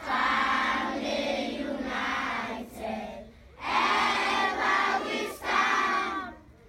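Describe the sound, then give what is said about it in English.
Schoolchildren at Education for All, a school for underserved children in Allentown, Freetown, Sierra Leone, chant together at a flag raising. Many voices sound in unison in long, sustained phrases, with a brief pause partway through and clear pitch shifts between phrases. “This is the sound of the flag being raised at Education for All. It's a school for underserved children in Allentown.”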